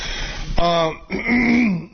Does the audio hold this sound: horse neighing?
no